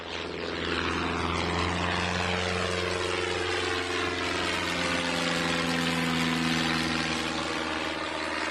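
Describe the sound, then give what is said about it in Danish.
Steady roar of a propeller airplane in flight, a loud, continuous engine drone with low humming tones that holds level and even from start to end, with no voices. “Så flyver vi til Japan.”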